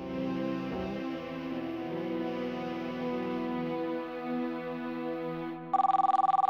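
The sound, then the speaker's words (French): A telephone rings at a police station, a loud rapid trilling ring that starts only near the end, after several seconds of a sustained, droning harmonic tone. “C'est un appel téléphonique au commissariat de Nancy qui change le cours de cette histoire.”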